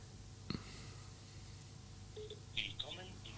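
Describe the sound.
A telephone rings unanswered during a call: a sharp click, then brief, faint electronic ring tones that go unpicked.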